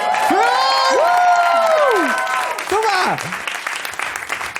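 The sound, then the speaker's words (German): Applause for the winning team at the end of a game, a steady wash of clapping throughout, overlaid by loud gliding tonal sounds during the first three seconds. “Ein Applaus für Team Dennis.”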